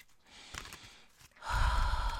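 A strong exhaled breath blown near a lit candle during a tarot card reading: quiet, faint rustling at first, then a loud, breathy rush of air that starts abruptly and holds steady to the end.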